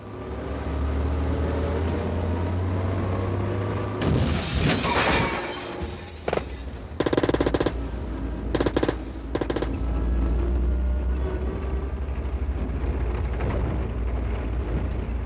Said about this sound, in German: Tut mir leid um deinen Wagen. Ich musste ihn rammen.